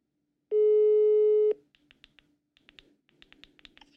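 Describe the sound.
Telephone tone heard while placing a call: one steady, pure tone lasting about a second stops abruptly. A faint scatter of soft taps and clicks like keys follows, with no talk.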